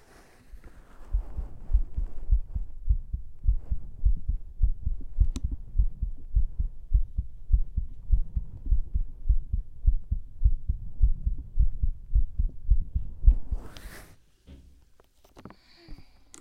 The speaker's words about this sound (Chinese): 感觉哥哥的心跳也没有很快嘛